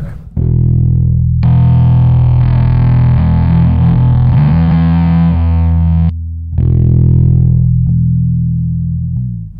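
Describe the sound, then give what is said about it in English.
Electric guitar played through a Black Arts Toneworks Black Sheep distortion and semi-fuzz pedal: a few loud, thick, sustained distorted chords, then a short break before a final chord rings out and slowly fades. “It's a Black Arts Toneworks Black Sheep pedal. Oh, okay. Just a distortion, semi-fuzz pedal. Let's hear like the clean tone and then go into the”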